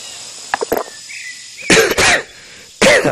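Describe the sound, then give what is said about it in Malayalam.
Coughing fit from an ailing man: a few short, sharp coughs followed by two loud, harsh, rasping coughs in quick succession, a pause, then another heavy cough, all without speech. “ചുമ വല്ലാതെ വീണ്ടും തുടങ്ങിയല്ലോ sir.”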